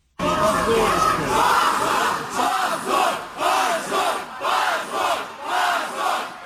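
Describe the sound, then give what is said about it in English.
Supporters of Russia's anti-war Yabloko party chant "shame" outside the Supreme Court after a verdict banning the party from elections. A loud crowd repeats the chant in a steady, regular rhythm of evenly spaced bursts. “That was the sound of the party's supporters chanting shame outside the court after that verdict was announced.”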